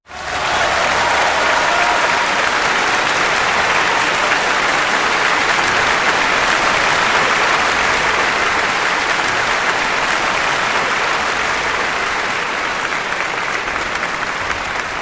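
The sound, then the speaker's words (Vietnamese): Applause from a crowd after a brief military drill display, starting abruptly and holding as a dense, loud, steady wash of clapping for the full length, easing only slightly near the end. “Lập tức tiếng vỗ tay và hoan hô nổi lên vang dội.”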